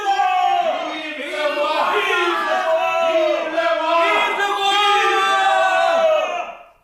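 A crowd cheers the coronation of Henri III with loud shouts in unison, repeated chanted calls rolling one after another before cutting off sharply at the end.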